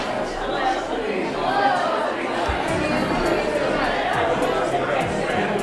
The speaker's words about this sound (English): Would you stand up and say hello to someone nearby? If you're not comfortable shaking hands, give an air five or an elbow or a wave, something.